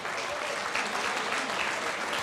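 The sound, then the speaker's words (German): Audience applause at an event with brass band music: steady, dense clapping from many hands, holding an even loudness throughout without pauses. “das ist ein Applaus”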